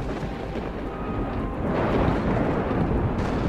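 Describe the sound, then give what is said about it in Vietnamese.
Thunder rolling through a storm with flashes of lightning: a deep, sustained rumble with no sharp crack. It swells slightly partway through and stays steady and fairly loud, with no voices. “Bất chợt một tiếng sét gầm lên, xé toạc tầng không”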